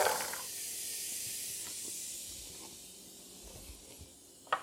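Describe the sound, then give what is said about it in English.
Chopped shallot and carrots sizzle in melted butter in a pan, giving a soft, steady hiss that stays faint and even throughout, with a small crackle at the very end. “So I'm going to go ahead and get the butter melted, and then I'm going to add in the shallot, which you can probably hear, and the carrots.”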